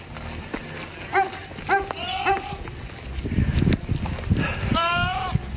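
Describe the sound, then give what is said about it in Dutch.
A goat bleats and cries out for a companion it is missing on a farm. Several loud, wavering, high-pitched cries come in short bursts, and a longer one arrives near the end over low background noise. “Ja, je hoorde het niet zo heel goed, maar het is dus een geit die om hulp roept.”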